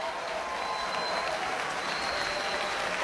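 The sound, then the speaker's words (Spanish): Concert audience applauding in a cultural center concert hall in Tacna: dense, sustained clapping from many hands, steady and even in loudness throughout. “repartiendo los aplausos del público reunido la noche de hoy en la sala de conciertos del Centro Cultural Tacna.”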